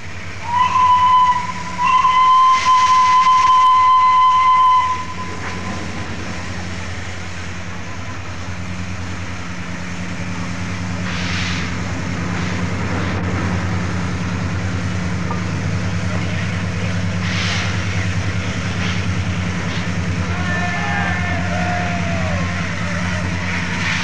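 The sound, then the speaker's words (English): A steam whistle blows from Flying Scotsman, the LNER steam locomotive, departing King's Cross on its last British Railways working run. About five seconds of loud, steady whistle give way to a continuous low rumble of the moving train. “the historic departure of Flying Scotsman on the last working run as a British Railways locomotive”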